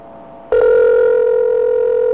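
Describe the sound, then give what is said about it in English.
A telephone ring tone on a rotary phone call to a company's customer service number: a steady, loud electronic tone starts abruptly after a faint low hum and holds unbroken to the end. “An Integratel ring. Here we go.”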